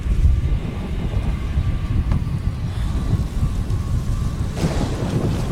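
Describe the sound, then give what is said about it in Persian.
Thunderstorm approaching: steady, rushing rain and wind noise with low rumbling throughout, and a brief louder swell near the end. “طوفان داره میاد.”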